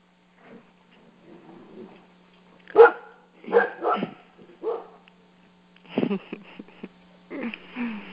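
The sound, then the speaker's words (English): A dog barks in a run of loud, irregular bursts, some in quick pairs and clusters, after a few seconds of faint sounds, with a steady low hum beneath throughout. “That was my dog's contribution to satsang. Some celebratory barking.”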